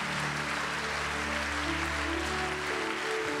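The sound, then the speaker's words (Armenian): Church audience applause during a service: steady, dense clapping that holds at an even level throughout, with low sustained tones beneath. “Եկեք մեր ծափարություններով ընդունենք այդ մարդկանց”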